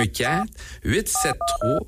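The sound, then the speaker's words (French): Telephone keypad dialing tones: three short, steady two-pitch beeps come in quick succession while people talk over and between them. “On va l'appeler. On va utiliser le téléphone.”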